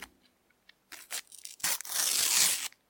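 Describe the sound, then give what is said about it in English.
A sticker pack is torn open with a few short, papery rips, then one longer, louder tearing sweep, and then quiet. “We're going to have to open four packs tonight to really to get ourselves back on the board. So, or just put us into real big funk. If all of these are swapsies, we're in trouble. Okay, I'm going to open first.”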